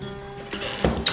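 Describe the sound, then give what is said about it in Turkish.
A door is shut in a radio drama set in a home with a fireplace in Bodrum in February, heard as two short wooden thuds in close succession that stand out from the quiet background. “Artık kapıyı kapatabilirsin.”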